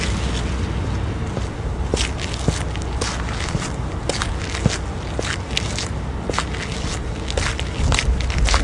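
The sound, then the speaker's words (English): Footsteps in a string of many irregular, crunchy steps and scrapes, spread evenly over a constant noisy background, with no talk. “Footsteps.”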